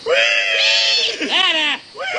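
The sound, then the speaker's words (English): A man squeals loudly like a pig on command, in high, strained, drawn-out vocal cries that waver up and down in pitch, with a short break before a final squeal. “Squeal. Squeal now. Squeal. Squeal. Squeal louder. Louder. Louder. Louder.”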